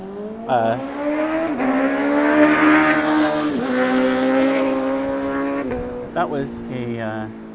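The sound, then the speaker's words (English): An R6 motorcycle speeds past fast and loud, its high-revving engine giving a strong, steady harmonic whine with a few brief dips in pitch. “That was a R6 cruising by really fast and loud.”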